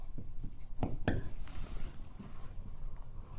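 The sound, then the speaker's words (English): Writing on a board gives a few scratchy strokes, two strong ones close together followed by lighter scraping, faint under low murmuring noise. “And I can't draw it here, but let's just simply write Christ.”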